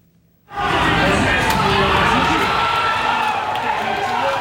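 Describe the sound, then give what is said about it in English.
After a moment of near silence, fans in Virginia erupt into a sudden, sustained roar of cheering and shouting as Mexico scores its first goal of the 2026 World Cup. “That's the sound of Mexico's World Cup soccer team scoring its first goal, and the first goal of the 2026 World Cup.”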